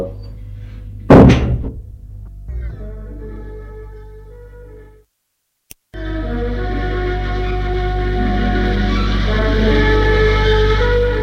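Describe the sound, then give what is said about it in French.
A door being opened gives a heavy thump early on, then a sharp latch-like click after a near-silent gap. A loud, sustained background wash follows, with a steady low hum underneath. “Il ouvre la porte.”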